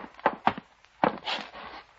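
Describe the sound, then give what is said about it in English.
Footsteps creeping up stairs, a radio drama sound effect: three heavy, clumsy thuds, two close together and one after a pause, then a soft shuffle. “There was no point in trying to keep quiet, because Hellman was creeping up the stairs like a stallion with a broken leg.”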